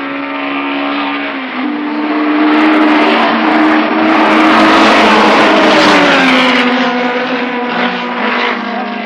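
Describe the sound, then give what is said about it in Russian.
A racing car engine revs hard on the track at around eleven thousand rpm, a loud, sustained buzzing whine that shifts slightly in pitch and stays strong throughout. “Они провожают взглядами машины на трассе. 43,4. Неплохо. Сколько оборотов? 11 тысяч.”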